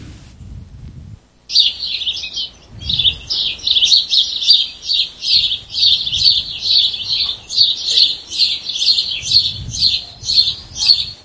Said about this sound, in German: Man hört die Vögel zwitschern.